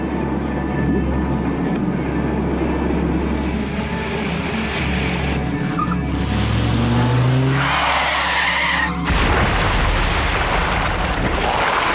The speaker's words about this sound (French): Il est 22h quand un cabriolet quitte la route principale et termine sa course dans le canal.